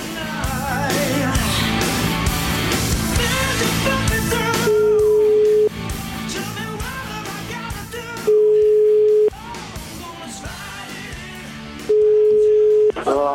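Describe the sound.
Telephone ringback tone while placing a call: three steady tones of about a second each at even intervals, sounding over a continuous busy background.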